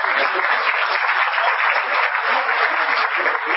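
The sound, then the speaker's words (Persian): Audience applause at the Iran Web and Mobile Festival in Shiraz, as people clap for themselves; a steady, dense wash of hand claps that stays loud and even throughout, with no talk over it. “یه دست بر خودتون بزنید.”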